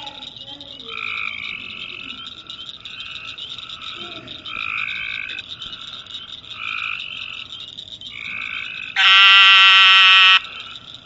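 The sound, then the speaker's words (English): Upland chorus frogs call in many repeated short rising trills, evenly spaced over a low background hiss. One much louder trill closes the sequence. “And the last one is one that we probably hear the most in our area. And it's called upland chorus frog.”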